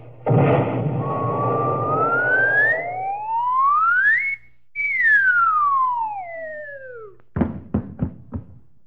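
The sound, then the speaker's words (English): Cartoon cannon shot launching a person: a noisy blast, then a long rising whistle, a brief gap and a descending whistle. A few sharp knocking thuds follow. “Okay, Hope, I'll have my friend Joe shoot me out of a cannon. Here I go into the barrel.”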